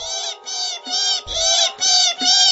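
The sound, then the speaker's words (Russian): Goshawk chicks squealing for food, six shrill, high, harmonic calls in quick succession, loud and with no other sound. “Ястребята заверещали, потянулись за лакомством”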